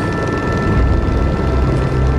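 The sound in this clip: Helicopter flying over the Bhotekoshi River where floods broke through the banks: a dense, steady rotor and engine roar with deep low rumble, loud and continuous throughout with no voices.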